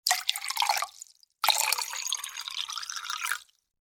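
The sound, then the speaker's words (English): Liquid poured from a bottle into two mugs: two splashing pours with no talk, the first about a second long and the second about two seconds, separated by a brief pause. “Fine. But I'm not drinking straight from the bottle. I draw the line at that. There's bound to be some glasses here somewhere. Here we are. These two mugs will do.”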